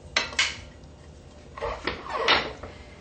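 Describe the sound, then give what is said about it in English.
Kitchen clatter while celery is chopped and dropped into a salad bowl: a few sharp knocks and clinks in two short bursts, with quiet gaps between them. “We'll chop the celery and put it in the salad bowl.”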